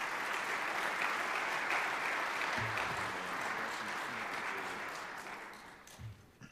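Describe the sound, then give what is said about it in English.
Audience applause at a church service welcomes a guest speaker to the podium: a steady, fairly faint wash of many hands clapping that thins out and fades near the end. “So let's put our hands together and welcome Doug Reed to this podium.”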